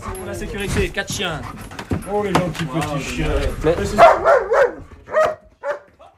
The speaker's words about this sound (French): And they're all German shepherds, purebred. Ah, c'est des pure bergers. Their parents are from Germany. Ah, ça c'est bon ça. C'est all the parents are from Germany. These are real German shepherds. Voilà, c'est des vrais bergers allemands.